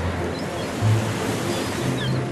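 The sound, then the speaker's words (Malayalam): Sea waves on a moonlit night in a Malayalam radio drama, a steady, broad wash of surf with a slight swell early on, heard alone without voices. “പിയാനോയുടെ കീബോർഡുകൾ പോലെയുള്ള വെൺനുരകളെ ഉയർന്നു താഴുന്ന piano സ്ട്രിങ്ങുകൾ പോലുള്ള ഈ തിരമാലകളെ നീ ഒന്ന് ചെവിയോർത്തെ”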